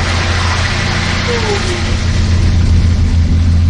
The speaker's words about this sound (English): it's the sound of the shuttle bus resonating against the walls of the canyon.